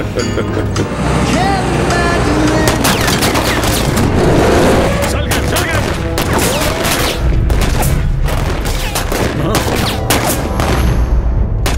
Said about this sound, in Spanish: ¡Fallan por kilómetros! ¡Bajen las armas! ¡Eso jamás! Si estás al frente, estás más seguro. ¿Eh? ¡Voy a seguir tirando!